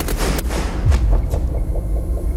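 A firing squad volley at an execution in a fort south of Paris: ragged sharp cracks of rifle shots over a low booming rumble, loud throughout.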